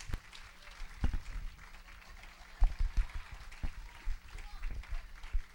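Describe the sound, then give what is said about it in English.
A church audience clapping and applauding in a steady, low-level patter, with a few sharper thumps standing out, under people talking. “So if you can clap me coming up here like that”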